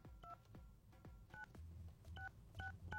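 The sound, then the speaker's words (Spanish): Telephone keypad tones as a phone number is dialed to reach a prize winner: a series of short, clear two-tone beeps at an irregular pace, each paired with a soft button thump, under a low hum. “Ok, bueno, ya marcamos. Vamos a ver si nos contesta.”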